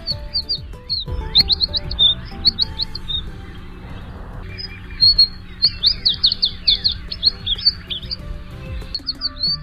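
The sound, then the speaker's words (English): American tree sparrow song: sweet, high whistles and warbles in repeated bursts of quick chirping notes, with short pauses between phrases over a low, steady background hum. “The sweet whistle and warble of Spizella arborea, the American tree sparrow.”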